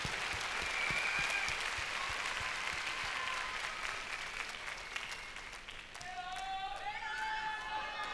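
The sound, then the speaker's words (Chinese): Audience applause at a concert of Cantonese songs with the Hong Kong Philharmonic Orchestra and chorus: soft, sustained clapping that thins near the end as a voice begins speaking over it. “歌啱听之外，还要有出色的观众，值得为你们大家鼓下掌。”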